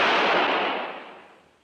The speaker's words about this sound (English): That sounded like a shot fired in anger. Radar, go take a look.